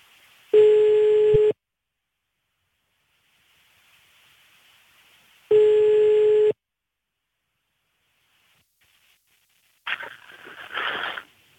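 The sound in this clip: Ringback tone of an outgoing telephone call: two one-second mid-pitched tone bursts about five seconds apart, separated by near-silence, then a short burst of rustling noise.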